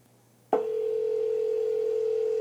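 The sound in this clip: A telephone dial tone for a prank call: a steady, unbroken hum that starts abruptly after about half a second of near silence and holds at an even level to the end, with no voices.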